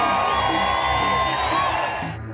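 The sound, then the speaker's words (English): Crowd cheering at a political rally: loud, sustained whoops and shouts from many people, staying strong before fading out at the end. “Note the cheers from the crowd there.”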